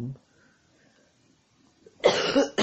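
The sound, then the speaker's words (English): A harsh, loud cough bursts out after a brief voice and a near-silent pause. “excuse me, I do not have a cough button.”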